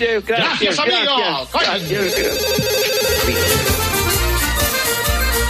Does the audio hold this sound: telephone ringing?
yes